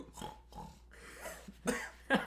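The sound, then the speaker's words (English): A person snorts in a few rough, nasal bursts with short gaps between them, ending in two louder, harsher snorts. “I tried to snort that.”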